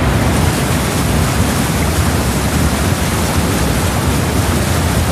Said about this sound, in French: Bon, c'est de l'eau, hein, je précise.